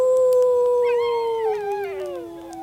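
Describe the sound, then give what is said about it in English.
A desert dingo howls in one long, loud, sustained tone that slowly sinks in pitch and turns wavering toward the end. “Can you make the sound of a desert dingo with me?”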